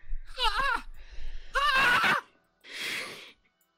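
A person screams in anguish with a few wavering, strained wailing cries, followed by a short, harsh, breathy outburst.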